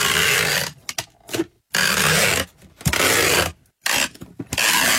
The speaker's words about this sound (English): That sounds like sticky tape. Or yeah, tape. Packing tape. Yeah. That's it.